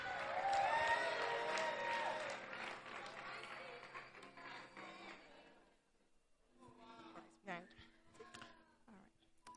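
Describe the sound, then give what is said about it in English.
An audience at a church testimony service applauds as a woman comes on stage. Dense clapping fills the first half, then thins and fades before a single voice begins speaking. “Please put your hands together as she comes on stage.”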